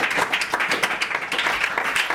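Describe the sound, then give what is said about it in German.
Audience applause at the end of a birthday event, sending off a guest with a hearty round. Dense, continuous clapping stays at a fairly even level for the whole stretch, with no voices standing out. “Ich verabschiede dich jetzt und ich hoffe, das Publikum tut es auch mit einem kräftigen Applaus.”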